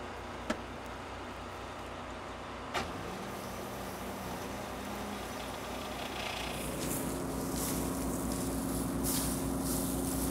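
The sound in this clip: A combine harvester's mechanism runs in reverse to clear a blockage, making a steady mechanical drone with two brief knocks early on. The drone grows louder and brighter after about seven seconds.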